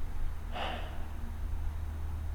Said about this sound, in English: the best thing to do is take a deep breath, an inhale, and an exhalation,